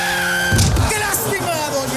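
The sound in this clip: A skidding car sound effect from a radio ad plays as a minibus strikes a pedestrian crossing the avenue: a brief, harsh tire squeal bursts over a steady, droning tonal layer.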